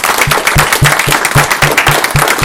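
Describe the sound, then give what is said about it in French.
An audience applauding in a steady, rhythmic beat, with about nine loud, even claps in unison. “On peut applaudir pour toi.”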